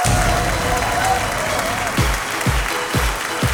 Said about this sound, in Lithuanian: Ponios ir ponai, plojimais pasitikime. Edmundas Kučinskas!